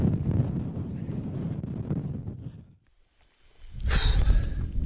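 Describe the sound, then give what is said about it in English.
Wind blows head-on across a hill ridge and buffets the microphone in a loud, low rumble. It fades almost to silence for a moment, then surges back strongly. “Bit of sunshine in the sky, clouds lifted, rain's not too bad, the wind's in our face, frustratingly”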